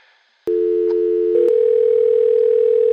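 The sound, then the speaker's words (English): A telephone dial tone sounds while a three-way call is set up. A click is followed by a loud, steady tone that switches to a slightly different steady pitch after about a second, then holds to the end. “Actually, would you mind doing three-way calling? I don't want to have to dial with my fingers, you understand.”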